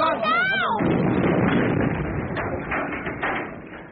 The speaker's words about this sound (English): there's a bomb in that house. It'll go in minutes.